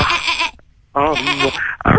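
A person imitating a goat's bleat, with two long wavering, nasal cries separated by a short pause and a brief third bleat at the end, loud and alone.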